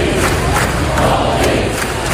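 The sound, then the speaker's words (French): A tennis crowd at a night match at the US Open chants a player's name. The loud, massed voices keep up a rhythmic pulse throughout. “vous entendez l'ambiance cette nuit sur le court à l'US Open. Assez incroyable, le public a crié donc le nom de mon fils alors qu'il jouait contre un Américain”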